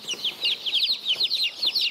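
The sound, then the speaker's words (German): Chicks of colourful mixed-breed chickens peep in quick, high, chirping bursts, repeated rapidly and steadily for two seconds with no voices. “Das sind lauter bunte Hühner”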